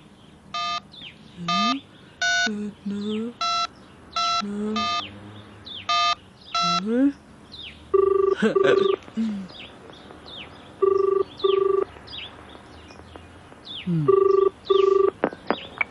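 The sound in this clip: Telephone keypad dialing tones as a call is placed to a home phone, a quick run of short, clipped beeps, followed by a few longer, steady tones repeating at intervals.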